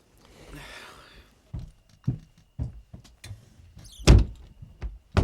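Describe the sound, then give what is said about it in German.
A wardrobe door is opened with a few soft clunks and knocks, spaced irregularly, plus one brief squeak near the end. The sounds are fairly faint. “Öffne deinen Schrank. Wenn es unbedingt sein muss.”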